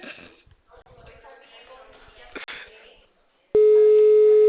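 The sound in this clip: A steady telephone call tone while dialing starts abruptly after a stretch of muffled talk and noise, then holds as a loud, unbroken pitched hum through to the end.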